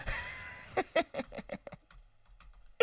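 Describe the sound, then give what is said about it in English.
Random, fake keystrokes on a computer keyboard follow a brief voice, with a quick, uneven burst of sharp clicks that taper into fainter taps before another short sound at the end. “I fake typed again.”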